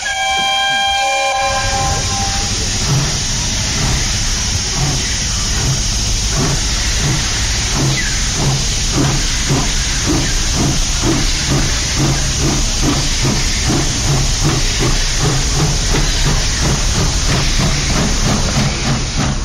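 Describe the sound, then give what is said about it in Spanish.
A steam locomotive starts up in a sound effect, opening with a brief whistle. Loud continuous hissing steam follows, with a steady repeating chuffing rhythm and rumbling rail noise throughout. “que se suba a la máquina y que arranque la locomotora del tren del conocimiento. Vamos con el tren.”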